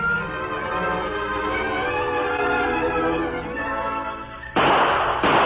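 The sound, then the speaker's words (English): Gunshots fired into the air: two loud, sharp blasts close together near the end, cutting in abruptly after a long stretch of sustained humming tones. “after firing into the air for the benefit of the outlaws who had followed and must be waiting in hiding nearby, the Lone Ranger”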